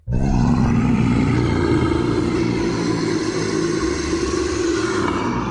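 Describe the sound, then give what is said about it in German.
A dragon roar sound effect tied to the Siebengebirge legend: a deep, rumbling, sustained roar that bursts in abruptly and holds loud and steady for several seconds. “Nach Drachen. Drachen sollen sehr lange im Siebengebirge gelebt haben, zumindest der Legende nach.”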